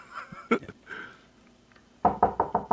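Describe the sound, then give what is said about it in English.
Knocking at a door: a quick run of sharp raps at the end, after a stretch of faint sounds. “hang on. Somebody's at the door.”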